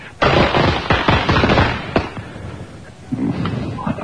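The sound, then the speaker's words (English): A box of firecrackers goes off in a dense, rapid string of loud, sharp cracks and pops, then thins to quieter, scattered bangs. “That is a box full of firecrackers waiting to go. Here it goes.”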